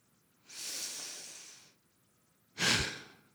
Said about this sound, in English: takes a long breath in, holds it, exhales.